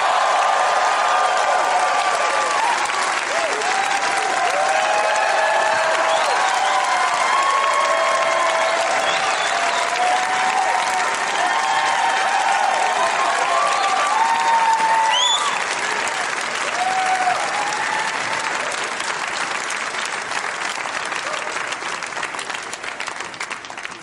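Audience applause greets four comedians, a long, dense wash of clapping that stays loud and steady before gradually easing in the later seconds.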